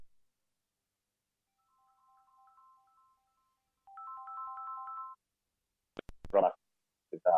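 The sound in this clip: Phone ringtone, a faint trilling electronic melody that repeats louder a moment later, followed by brief bursts of speech.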